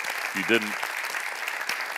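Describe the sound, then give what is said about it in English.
Audience applause for conference interpreters, a steady wash of clapping at an even level, with a brief voice rising above it near the start. “we should give a huge round of applause for our interpreters here who are doing an excellent job.”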